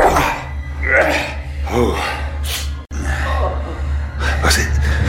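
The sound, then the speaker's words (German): A low, rough groan, breathy and growl-like, rises and fades in a few drawn-out bursts from an unseen figure in a stone cellar beneath an inn during an audio drama, over a steady low hum. “Was ist das? Was meint ihr? Ich war sicher, ein Stöhnen gehört zu haben.”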